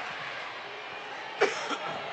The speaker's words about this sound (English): I was coughing.